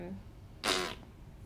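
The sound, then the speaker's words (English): A voice imitates a fart with one short, loud, buzzing raspberry burst that rises above a quiet background and then fades away. “It was farting noise. That's the only way to describe it.”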